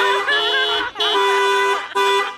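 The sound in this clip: A car horn sounds in three long honks separated by brief gaps, loud and steady, with a warbling, wavering tone.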